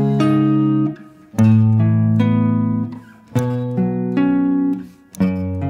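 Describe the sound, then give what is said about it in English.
A guitar plays a power chord with an added ninth on top, struck four times, and each strum rings out loudly before fading. “But he spices up those five chords, which is another name for a power chord, with a 9 on top. And you can very easily find that 9th by just playing the octave and then going 2 semitones higher.”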